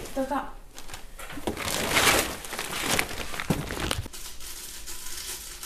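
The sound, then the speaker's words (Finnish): Packaging crinkles and rustles as online store orders are packed into parcels, with irregular crumpling and a few sharper handling noises under a person talking. “Pakkaan verkkokaupan tilaukset tässä välissä, kun on tulossa kohta kuski hakemaan paketteja.”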